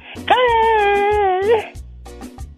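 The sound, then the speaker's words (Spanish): A voice imitates Kiko from El Chavo del 8 crying, with one long, wavering, high wail. A few short voiced sobs follow it. “¿Cómo llora Kiko? Tú sabes ahora a ver cómo llora.”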